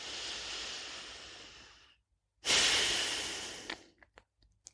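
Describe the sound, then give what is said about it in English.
Deep human breathing: two long, airy breaths separated by a brief pause, followed by a few faint clicks, all soft and quiet. “Breathe in.”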